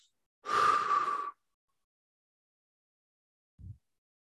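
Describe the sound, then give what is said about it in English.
A long, forceful exhale of all the breath in the lungs, lasting nearly a second, then a pause and one brief, faint, low strained grunt as someone tries to voice a word with empty lungs. “I want you to try this. Let out all your breath and then try and say a word.”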